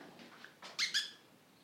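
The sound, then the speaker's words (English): A small female wild cat calls right up close to the microphone, giving two short, high squeaky cries in quick succession after a few fainter rustling sounds. “This is that little wild cat, and she's right in my face.”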